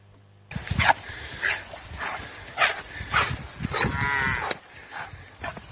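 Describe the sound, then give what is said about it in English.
Well-fed calves escaping from the barn moo and bawl repeatedly, several loud, drawn-out calls overlapping in a lively, uneven string. “Have you ever seen a well-fed calf escape from the barn? Let's watch that now”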